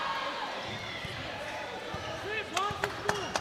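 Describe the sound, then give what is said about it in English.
A basketball is dribbled between the legs during a high school boys' game, producing a few quick, hard bounces near the end over crowd murmur and a voice talking. “Between the legs dribble.”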